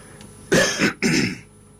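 Coughing from a man who has a cold: two loud, harsh bursts in quick succession, with no talk around them.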